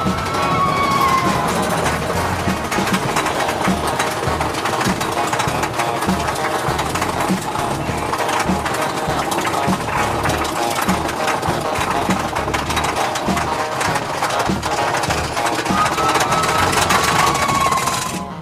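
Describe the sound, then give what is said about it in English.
Train ride sound effect from a scripted audio adventure, a loud, continuous rattling mechanical rumble that holds steady for the full stretch without pause. “Inside the train and remain seated at all times. Now then, hang on to them hats and glasses, because this here's the wildest ride in the wilderness.”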